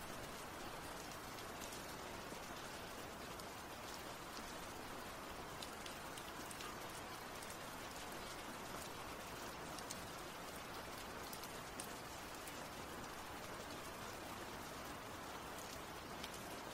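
Steady rain falling, a dense, even hiss of countless drops that holds at a constant, soft level with no pauses or other sounds.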